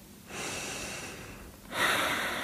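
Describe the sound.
A deep breath in and out during a guided belly-breathing exercise: a long, soft, airy inhale, a brief pause, then a slightly louder breathy exhale, with no talking.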